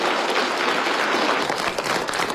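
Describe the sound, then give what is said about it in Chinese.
Warm, sustained applause from a hall full of delegates in a meeting room as a leader enters. Dense, steady clapping fills the whole clip without a break. “全场响起热烈掌声”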